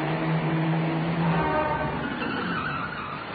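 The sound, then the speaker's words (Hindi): Steady engine and road noise of a car approaching on a road where no bus is coming, amid reports of rioting, with a faint tonal hum over a broad rushing wash that stays fairly even throughout, no talk. “एक और car आ रही है।”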